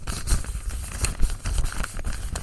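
Paper crinkling and tearing as an envelope is opened at an award presentation: many irregular rustles, crackles and short rips follow one another closely at moderate loudness.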